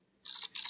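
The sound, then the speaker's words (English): Two high, piercing electronic beeps from a late-1970s or early-1980s handheld football game of the Mattel or Coleco type, in quick succession with a brief gap between them. “That sounded like the handheld Mattel Coleco football game Wintone to me. See? Been 40-ish years, and if it's not that, it's a similar late 70s, early 80s handheld.”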